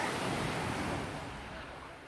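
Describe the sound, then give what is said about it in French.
Waves wash onto a calm Tuscan beach by the sea in the early morning, a soft, continuous roar of surf that stays even and fades slightly toward the end, with no voices. “Eh ben nous y voilà, on hein, est au bord de la mer. Pour l'instant c'est calme, hein, il n'y a pas beaucoup de monde.”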